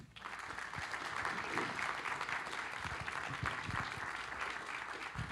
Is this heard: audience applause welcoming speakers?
yes